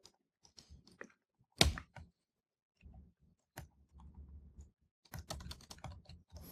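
Quiet typing of code on a computer keyboard, irregular bursts of clicking keystrokes broken by short pauses, with one sharper clack standing out early on.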